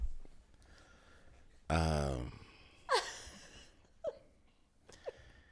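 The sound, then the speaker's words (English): Hot breath blown out in a long, breathy exhalation with a rough, voiced edge, followed by a few shorter, fainter puffs of air. No words are spoken. “That just sounds like a bunch of hot breath.”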